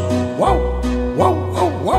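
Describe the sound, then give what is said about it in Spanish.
Dogs bark in a children's song: four short, yapping, pitch-arched barks in an uneven rhythm over sustained musical tones. “Mira cómo ladran los perritos.”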